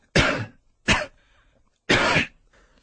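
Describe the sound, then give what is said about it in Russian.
A man coughs three times in short, harsh bursts. The first two come close together, and the third follows after a longer pause. There are no voices. “Закашлялся опять Володька, скрывая этим свое волнение.”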